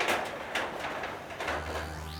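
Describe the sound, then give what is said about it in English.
An elevator comes to a stop with a run of mechanical scraping and clunking, then a low steady hum settles in partway through. A faint rising whine follows at the end. “The elevator stopped.”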